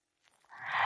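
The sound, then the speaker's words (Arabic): Water sloshing as a mouth is rinsed to clear away toothpaste remnants after brushing. The gurgling hiss starts faint and swells to a steady, fairly loud rush by the end. “وأخيرا سنقوم بشطف الفم جيدا بالماء لإزالة بقايا المعجون”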